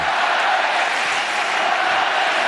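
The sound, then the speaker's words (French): Tennis crowd at Roland-Garros during a match point, with Gaël Monfils serving against Hugo Gaston: a steady, dense roar of many voices and crowd noise that holds at an even, fairly loud level throughout. “Balle de match en faveur d'Hugo Gaston face à Gaël Monfils. Gaël Monfils est au service. Écoutez le public.”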